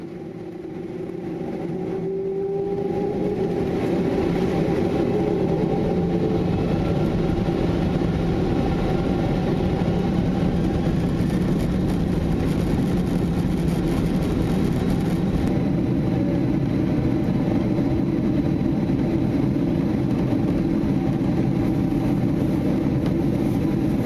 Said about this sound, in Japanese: We'll be taking off shortly. Please make sure your seat belt is fastened.